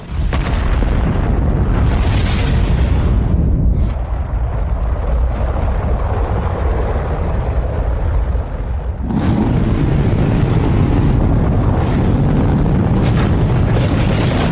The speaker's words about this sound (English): The capsule's shaking like crazy, and you're aware of the rocket engine swelling like a tidal wave